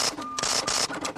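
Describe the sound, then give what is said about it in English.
A cash register prints a receipt with buzzy, whirring mechanical bursts that come in short repeated stretches, loud and alone. “make our way to the counter, check out at a real cash register, and would hear the receipt printing out.”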